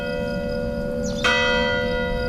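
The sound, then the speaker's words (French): A church bell rings by a mountain chalet, a steady sustained ringing tone that swells with one fresh, louder strike just past the midpoint, then keeps ringing on. No voices are heard. “cette cloche qui sonne”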